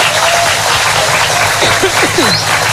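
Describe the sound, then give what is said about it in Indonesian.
A group applauds, clapping hands to praise a child who recited a lesson. The dense, even clapping holds steady and loud from start to finish. “tepuk tangan dulu.”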